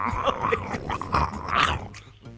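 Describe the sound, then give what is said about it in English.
Two koalas bellowing: rough, throaty growls and grunts rise and fall in a continuous, rumbling stream with a few sharper, higher yelps mixed in, loud throughout and fading near the end. “Just two koala bears just going at it.”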